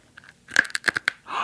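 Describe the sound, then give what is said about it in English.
Hard candy being chewed in a dark closet, with several sharp, crisp crunches in quick succession followed by a softer, breathy noise. “Okay, now, we have to get to where we can see each other crunching. Yes. Okay, who's going to chew? Are you both chewing? Or? I'll chew one first, yeah.”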